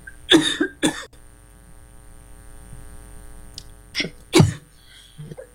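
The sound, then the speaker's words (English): Coughing from the mayor at a meeting table: a few harsh, loud bursts in two short clusters, separated by a long, quiet stretch with no talk. “Mayor's choking at the table”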